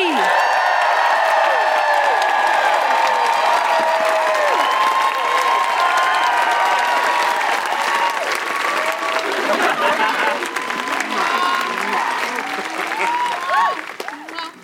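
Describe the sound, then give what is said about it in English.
A live audience applauds loudly and steadily, with cheering and whoops mixed into the clapping. The applause holds throughout and thins out at the very end. “Please put your hands together and make enormous woohooing noises for Alex and Amy.”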